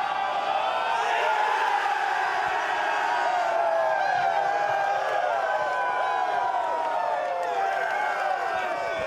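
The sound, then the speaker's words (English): A rugby stadium crowd in Wellington, New Zealand, roars and cheers as Ireland beat the All Blacks to win the 2022 test series. A loud, dense mass of shouting voices and whistles holds steady throughout. “That was the sound of Ireland beating the All Blacks in Wellington to take the series back a few months ago down below in New Zealand.”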